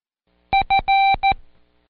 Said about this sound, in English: The word fail is the only long beep in the sequence